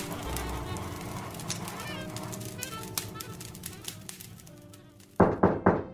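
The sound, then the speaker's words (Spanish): Someone knocking on a house door: three sharp, loud raps close together at the end, after several seconds of quiet low background sound. “A veces, alguien llama a su puerta.”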